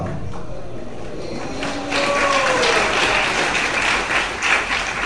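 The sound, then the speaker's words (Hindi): An audience at a Hare Krishna religious discourse applauds a prophecy. The clapping starts faint and swells into dense, steady applause for the second half. “भविष्यवाणी का तो आपने स्वागत किया करताल ध्वनि से।”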